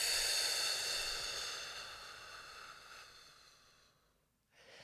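A slow, deep exhalation during a breathing exercise, a faint, airy hiss that starts full and gradually thins and fades over about four seconds before a short silence.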